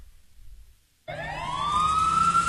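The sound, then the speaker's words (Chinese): Police siren wailing on an empty, rainy street before dawn, bursting in loudly after near silence and sweeping upward in pitch as it swells. “林南心被呼啸的警笛声吵醒”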